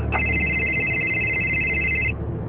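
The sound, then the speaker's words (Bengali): A mobile phone rings with a single sustained, high electronic tone that lasts about two seconds and then cuts off. A steady low background hum runs underneath throughout. “Sir আপনার phone বাজছে।”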